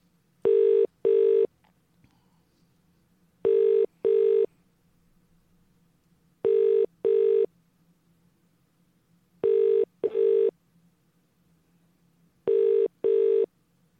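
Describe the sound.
Telephone keypad tones as a number is dialled: ten short, loud beeps arranged in five evenly spaced pairs, heard alone over a faint low hum.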